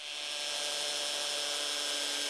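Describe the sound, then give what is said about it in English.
A hammer drill with a carbide-tipped bit bores into concrete, pounding as it rotates: a loud, steady, hissing grind that holds unbroken for the whole stretch, with no voices. “While I could use a regular drill, the job will go much faster with a hammer drill that pounds as it rotates.”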